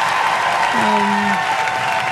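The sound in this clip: Applause from many hands, a dense, even wash of clapping that stays steady and fairly loud for about two seconds without a break.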